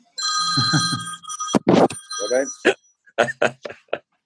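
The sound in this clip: A telephone rings with a steady, bright electronic bell tone that persists for a couple of seconds while people talk over it, then gives way to conversation.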